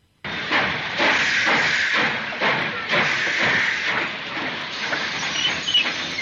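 A steam train hisses with a loud, steady rush of steam that swells and eases in a rhythmic pulse, starting abruptly and running without pause to the end.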